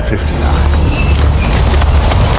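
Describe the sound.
A train thunders along in a loud, steady rumble of rolling wheels and rattling carriages, with thin high squeals running through the dense noise.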